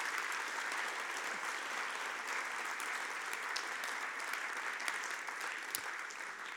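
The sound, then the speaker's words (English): An audience gives sustained applause to welcome a speaker onto the stage: even, dense clapping at a steady level from start to finish with no voices standing out. “would you put your hands together, please, and welcome Helen Bahani to the stage.”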